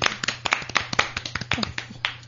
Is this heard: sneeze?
no